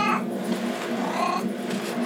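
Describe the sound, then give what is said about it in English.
A cat screaming in the background: a couple of faint, drawn-out wailing cries over a steady low hum. “Can you hear my cat screaming in the background? Oh, that's a cat.”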